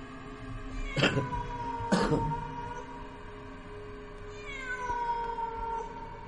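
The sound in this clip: A stray cat meows with drawn-out, tonal, wavering cries, loud and clear, with no talk over it.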